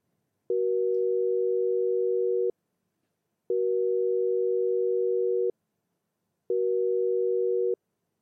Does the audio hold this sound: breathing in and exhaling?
no